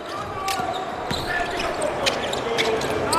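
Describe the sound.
A basketball is dribbled during a China national team game, with a few dull bounces heard faintly beneath a constant, dense roar of crowd noise.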